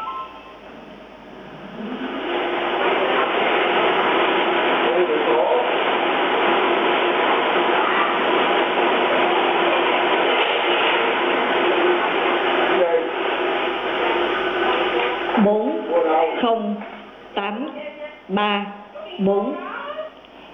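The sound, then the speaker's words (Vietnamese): Lottery balls tumble in five spinning cages during a Vietnamese draw for a 10-million-dong prize. A dense, continuous mechanical rattle and clatter builds up and holds steady for about thirteen seconds, then stops and a voice begins speaking. “Giải này sẽ được mở bằng cách cho quay banh ở 5 lồng cầu thuộc hàng đơn vị hàng chục, hàng trăm, hàng ngàn, hàng chục ngàn và quay 2 lần. Đây là lượt quay thứ nhất.”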